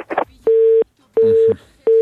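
Telephone busy tone after a dropped phone call: three steady, mid-pitched beeps of equal length separated by short silences, preceded by a brief scrap of noise.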